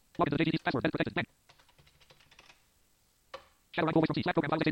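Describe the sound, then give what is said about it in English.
A username and password typed on a computer keyboard: a run of soft, quick key clicks between stretches of talk, ending with one sharper single keystroke. “you would hit Enter on that, type in your username and password, and then hit Enter again.”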